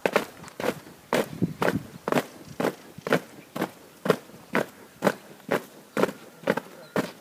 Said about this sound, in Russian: Равняйсь! Смирно! Шагов марш!